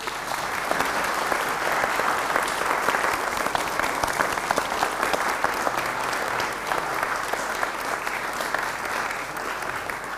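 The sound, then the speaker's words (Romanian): Wholehearted applause from a gathered audience continues steadily for the full length, a dense crackle of many hands clapping at constant loudness with a faint crowd murmur beneath. “cred că merită să-i aplaudăm din toată inima.”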